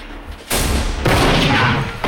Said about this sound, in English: The third shot ricochets him off the wall.